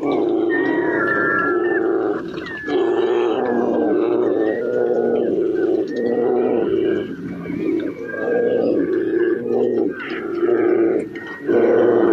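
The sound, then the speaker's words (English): Bears growl, roar and grunt as they chase and fight each other over salmon on the tide flats of Cook Inlet. The rough, snarling vocalizations are loud and nearly continuous, with a few brief dips. “Cook Inlet, is one of these encounters between the bears. The chase, right past me, the argument.”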